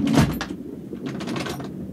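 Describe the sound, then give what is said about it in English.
A washroom door on a train shuts with a solid thud at the start, followed by softer rattling and rustling that fades out. “So saying, Jack Seeger pushed William aside, strode past him into the washroom and closed the door.”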